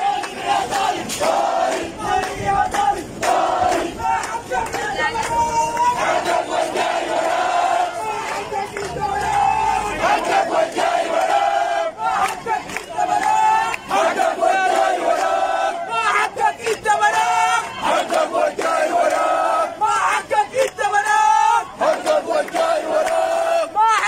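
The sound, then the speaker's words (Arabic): Protest marchers in a university demonstration chant slogans in loud, rhythmic group shouts, a dense crowd roar that continues throughout with brief dips between chants. “وردد المشاركون في المواكب هتافات تندد بتردي الأوضاع المعيشية والبيئية والأمنية في الداخليات.”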